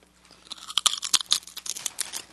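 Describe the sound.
Crunching and chewing of a thick, rough-textured rice cracker made from non-glutinous rice: a rapid, uneven series of sharp, dry, crackly bites, fairly loud, with no talking.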